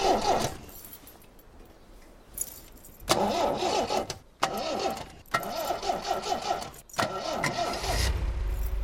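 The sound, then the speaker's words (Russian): A white Mercedes convertible's engine starts and the car drives off: a few bursts of mechanical rattling and clicks, then a low engine rumble swelling at the end. “Мужчина разворачивает машину и уезжает. На передней части автомобиля расположен знак «Мерседес».”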